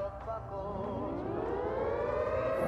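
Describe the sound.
An alarm siren set off by pressing a big red button: a single continuous wail that climbs steadily in pitch and grows louder, sounding alone.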